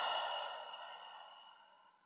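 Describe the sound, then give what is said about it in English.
A single long, soft breath out through the mouth at the close of a deep-breathing exercise, an airy exhale that starts moderately and fades away over about two seconds. “take a deep breath to close. Big inhale through the nose. Full exhale out of the mouth.”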